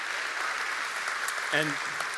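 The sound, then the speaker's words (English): An audience at a church service applauds baptisms: a moderate, steady wash of clapping from many hands, with a voice briefly rising above it near the end. “We did 156 baptisms last weekend. You can clap for that.”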